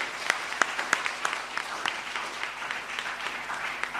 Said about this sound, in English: So would you put your hands together and welcome Nigel as he comes to give his 10-minute opener.